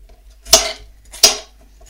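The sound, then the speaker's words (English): Chopped bite-sized food pieces drop into a bowl that already holds garlic and onions. Two short, sharp clattering knocks land about 0.7 seconds apart against quiet. “and put into the bowl with the garlic and the onions.”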